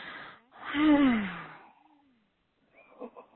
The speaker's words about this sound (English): Take another breath.